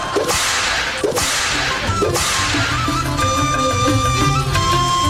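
Three sharp whip cracks ring out about a second apart, loud and snapping over steady music. The music carries on alone afterward with sustained tones.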